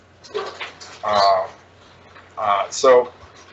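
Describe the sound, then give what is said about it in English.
A dog in the background barks and whimpers in a few short, loud bursts separated by brief quiet gaps. “sorry about the dog”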